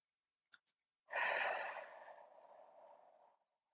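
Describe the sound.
Slow, relaxed breathing while sitting still: two tiny clicks, then one long, soft exhale like a sigh that fades gradually over about two seconds.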